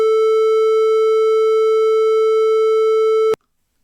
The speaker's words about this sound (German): In diesem Fall wieder den Sinuston mit 440 Hertz.